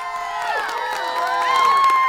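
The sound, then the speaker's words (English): A studio audience cheers and whoops in a loud, steady roar of many voices that swells slightly toward the end, with no speech over it. “you know there is someone that we forgot to introduce. Of course, our wonderful studio audience. Yes, give us a hand.”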